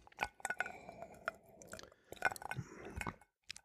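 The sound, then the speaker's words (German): Someone sips neat Dubonnet from a glass, making soft wet slurps, small clicks and faint glassy taps in an irregular run of quiet bursts that ends with a short pause and a final click. “Oh, ich nehme noch einen Schluck Dubonnet. Pur.”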